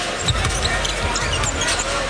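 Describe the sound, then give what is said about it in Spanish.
A basketball dribbled during a game, bounced with the left hand and switched to the right, its repeated low thumps running under a commentator's voice and steady crowd noise. “Utiliza bien las dos manos, bota con la izquierda, se la cambia a la derecha”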